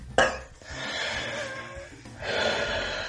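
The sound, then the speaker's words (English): A man wheezes while smoking a cigarette during an asthma-like attack. A sharp gasp opens into quiet, drawn-out, hissing breaths with a rasping edge, then a second wheezy breath. “He might not have lung cancer, but he's certainly going through like some sort of asthma attack while he's smoking his cigarette.”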